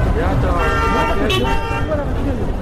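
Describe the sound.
On a busy market street, cars and rickshaws roll past in a constant roar of traffic. A short horn toot cuts through partway in, and a crowd murmurs underneath.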